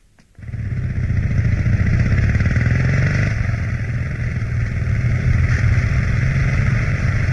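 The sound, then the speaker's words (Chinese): A motorcycle carrying two passengers in Shanghai. Its engine kicks in abruptly and settles into a loud, steady, throbbing drone for several seconds while riding, with no voices. “摩托车载着田海、周达驶往上海北区的一座幽静典雅的饭店。”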